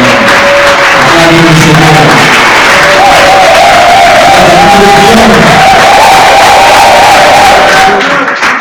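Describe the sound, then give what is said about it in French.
Church audience cheering and acclaiming the Lord: a loud, sustained crowd roar of overlapping shouts and voices that holds steady throughout. “avec votre permission, on va acclamer le Seigneur pour la vie”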